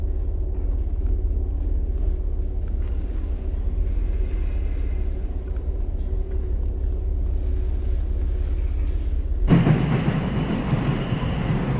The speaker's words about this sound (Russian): Мать едет на поезде.